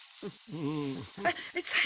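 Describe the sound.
Vegetables stir-frying in a pan give off a steady sizzling hiss that runs throughout, with a voice speaking over it.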